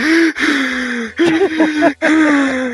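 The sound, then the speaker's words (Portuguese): A voice imitates gasping for breath after climbing to the last step of a staircase. Several strained, voiced gasps are separated by brief catches of silence. “A hora que você vai dar o, o último degrau, cara, a hora que você, vai, você põe o pé no último degrau, você não consegue mais respirar. Você tá assim”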